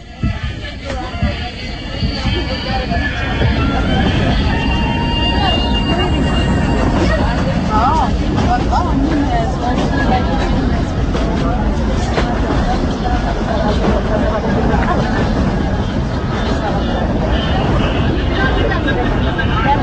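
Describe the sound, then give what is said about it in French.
Inside a moving diesel train at night, a loud, steady rumble of the running train fills the whole span, with a murmur of passengers' voices mixed into the drone. “Là, on est en train de rouler dans le noir ou presque parce que la nuit est tombée. L'ambiance a changé dans le train.”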